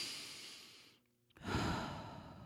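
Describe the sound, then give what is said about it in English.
A deep breath is taken in and let out as a long, breathy sigh. Steady airy noise fades into a brief quiet gap, then a fuller, louder exhale follows and holds to the end. “take a moment and take a big, huge, deep breath. There you go. And that felt good.”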